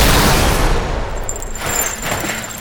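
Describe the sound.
Gunfire aimed at a guard robot: a loud, dense burst of shots that fades, then swells again briefly before dying away.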